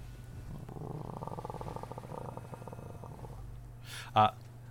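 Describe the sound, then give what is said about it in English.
A tiger in a tabletop role-playing game gives a low, pulsing, purr-like grumble that rumbles faintly for a few seconds, followed by one brief, sharper burst near the end. “The grumbling of the cat is going to be enough to wake Vary.”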